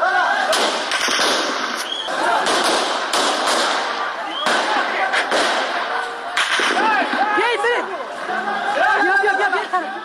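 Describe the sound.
Gunfire at a street protest in Kabul, with shots fired into the air: several sharp cracks and pops burst out over a dense, continuous layer of crowd chatter and shouting voices.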